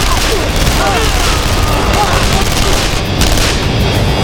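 Blaster gunfire in a firefight at a wire gate: dense, overlapping bursts and booms run loud and unbroken through the whole stretch, with no gap between volleys.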